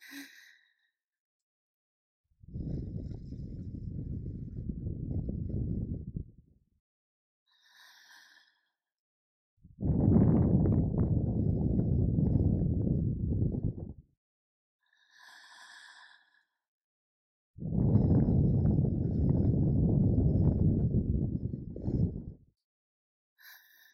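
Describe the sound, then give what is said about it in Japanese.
Slow ASMR ear-blowing, breath pushed steadily into the microphone in three long, soft, breathy gusts of several seconds each, with silent pauses and faint short breaths between them. “今度は少し長めに吹きかけてみようか。”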